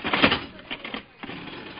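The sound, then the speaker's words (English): A slot machine being played gives off loud mechanical clattering and whirring in a few bursts, the strongest at the start and softer rattles after. “Well, I feel lucky tonight. Let's play this slot machine here.”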